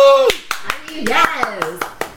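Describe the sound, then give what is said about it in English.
Rhythmic clapping, a steady run of sharp, evenly spaced claps, heard under a voice that sings or whoops with wavering pitch. “Hold your applause.”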